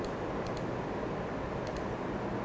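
Computer mouse clicks while right-clicking to format cells: two quick double clicks, faint and crisp over a steady background hiss.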